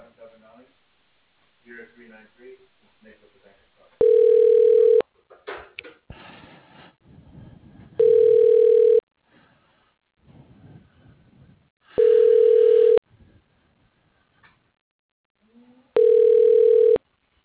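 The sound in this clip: A telephone line rings while a call is being transferred: four steady, evenly spaced one-second tones of the same pitch, each about four seconds apart, with faint voices and low noise in the gaps.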